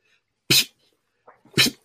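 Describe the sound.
A voice imitates a water spout with loud, hissing, sneeze-like bursts of breath. One burst comes first, then a short low murmur, then two more bursts in quick succession.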